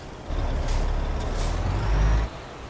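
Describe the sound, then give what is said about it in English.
A truck hauling a wind turbine segment creeps forwards and backwards, its air brakes giving short hissing bursts over a steady low engine rumble that swells briefly near the end. “I'm not quite good enough to have gotten this first try. I have to drive forwards and backwards for a few”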